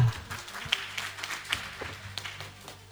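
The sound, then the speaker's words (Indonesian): Light applause for three finalist teams at a competition: sparse, irregular claps scattered over a quiet background, never building into a dense ovation. “Sekali lagi, mari kita berikan aplaus kepada tiga regu kita.”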